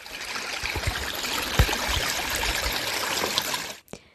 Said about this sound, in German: Wenn ihr alleine seid, müsst ihr nach jedem Mal eure Hände waschen.